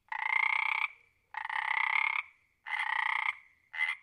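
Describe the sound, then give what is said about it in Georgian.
Four rasping frog croaks, each a loud, buzzy burst on a steady tone. The first three are long and evenly spaced, the last is short, with silence between them. “მოისმინე და მიუთითე სურათზე, რომელია? ყი ყი ყი. ყიყინებს ბაყაყი.”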